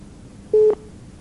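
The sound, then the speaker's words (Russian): A single short telephone busy-signal beep sounds after a dropped call: a steady mid-pitched tone lasting about a fifth of a second, clearly louder than the faint hiss around it. “Ну вот, сорвался звонок.”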